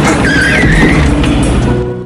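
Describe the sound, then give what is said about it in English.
A car that has crashed through cemetery gates skids to a stop among tombstones. A loud, sustained tire squeal rides over steady engine roar, and the noise eases off slightly at the end. “A car crashes through the gates. Elijah stops between tombstones. The car pulls up.”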